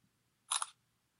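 A camera shutter snaps once as a photo is taken, a short, crisp double click standing alone in near silence.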